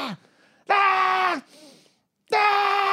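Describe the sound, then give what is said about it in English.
A voice imitates a child screaming at the top of his lungs, giving two long, loud, sustained shrieks separated by a brief low groan and a short pause. “like screaming at the top of his lungs.”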